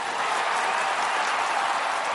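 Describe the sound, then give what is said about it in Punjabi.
A loud round of applause at a Punjabi music performance by three singing brothers, given in honour of their late teacher. The clapping forms a dense, even hiss that stays steady from start to finish. “ਉਹਨਾਂ ਦੇ ਨਾਂ 'ਤੇ ਇੱਕ ਵਾਰ ਜ਼ੋਰਦਾਰ ਤਾੜੀ।”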